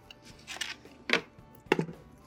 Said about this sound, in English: Now, I'm gonna start by putting my short ribs into my pressure cooker.